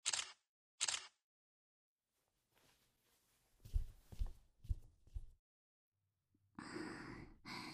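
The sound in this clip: Camera shutter clicking while photos are taken: two sharp clicks at the start, followed by soft breaths and sighs.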